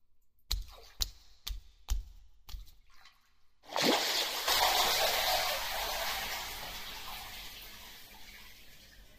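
Bathwater heard as someone settles into a bathtub: a few sharp drip-like clicks in near silence, then a sudden loud rush and slosh of water that stays steady and slowly fades, with no talk.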